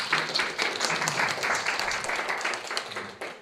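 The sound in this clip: Audience applause welcoming a speaker to a seminar on teaching language arts outdoors: dense, steady clapping from many hands that holds at an even level for the whole stretch before tapering slightly at the very end.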